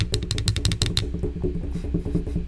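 A drum roll: a rapid run of sharp, bright strikes fills the first second, then gives way to softer, low rhythmic thumping that carries on to the end.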